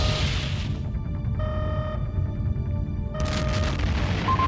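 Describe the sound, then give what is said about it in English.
A starship fires a quantum torpedo from its aft tube and the target explodes: a broad blast opens, steady electronic tones follow, then a second broad burst comes near the end, all over a constant low rumble. “line up aft quantum torpedo tube. Aye, sir. Lining up for the shot. Fire when ready, tactical. Firing.”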